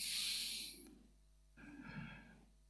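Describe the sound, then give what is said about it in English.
An audience at a worship service draws a deep breath together, heard as two broad, airy rushes of breathing, the first louder and longer, separated by a brief near-silent gap. “I would like all of us to just smile and take a deep breath.”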